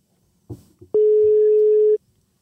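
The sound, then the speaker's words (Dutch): A telephone rings out as a call is placed. Two soft clicks lead into a single loud, steady, mid-pitched ringing tone lasting about a second, then the line falls quiet. “We gaan hem even bellen”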